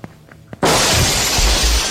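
Window glass shatters as a woman leaps out through it: a few soft thumps, then a sudden loud crash followed by a sustained spray of breaking, tinkling shards.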